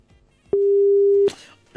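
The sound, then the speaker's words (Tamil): A telephone disconnect tone sounds as a caller's line cuts off: one steady, mid-pitched beep lasting under a second. Short, soft clicks come just before and after it. “Call cut ஆயிடுச்சு உங்களுக்கு.”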